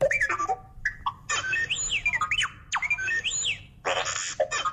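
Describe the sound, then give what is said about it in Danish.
A droid robot chatters in rapid electronic beeps and warbling whistles, with swooping pitch sweeps that rise and fall like a mechanical bird. The chirps come in quick bursts with short gaps, alone and fairly quiet. “Lad os lige prøve at høre, hvordan R2-D2 vil sige tredje planet for solen.”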